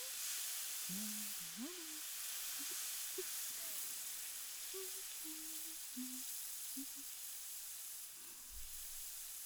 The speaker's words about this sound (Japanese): どうです？いい音だったでしょう。鉄板で何かを焼く音ってリラックス効果があるらしいんですよ。